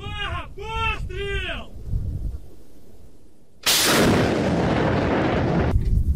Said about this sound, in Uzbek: Bu raketa tizimi bilan jihozlangan yuk mashinasi bo'lib, unga Sovet Ittifoqi davrida ishlab chiqarilgan BM-21 grad baravar raketa uchirish tizimi o'rnatilgan.